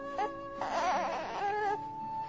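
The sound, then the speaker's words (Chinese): An infant cries in a few short, wavering wails that rise and fall in pitch, fairly faint, with no talk over them. “又是妹妹哭了，她好爱哭哦。”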